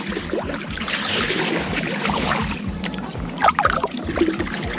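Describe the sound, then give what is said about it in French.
Someone rowing a boat: water sloshes and trickles continuously with a steady low rhythmic churn, and a few louder splashes come near the end. “Alors, il y a de l'eau, évidemment. L'eau, on l'entend, mais c'est bien quelqu'un qui rame.”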